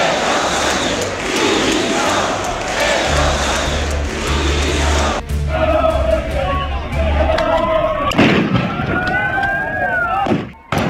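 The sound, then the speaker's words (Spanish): A loud crowd roars and shouts during riots in Madrid in front of Congress after a demonstration, as police disperse a small group of ultras. The uproar is continuous, followed by whistling tones and a loud sudden burst late on. “Son los disturbios que se han producido en Madrid una vez terminada, como decíamos, la manifestación de la capital, que ha reunido a decenas de miles de ciudadanos pacíficos. La policía ha disuelto a este grupúsculo de ultras frente al Congreso,”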